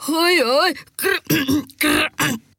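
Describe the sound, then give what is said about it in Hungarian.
A voice imitates a tailor's hoarse croaking and throat clearing: several rough, raspy voiced bursts with a wobbling pitch, separated by short pauses. “majd krákogott és ijetten felkiáltott. Csak nem rekedtem be, csak nem dugult el a torkom, jól nézek ki.”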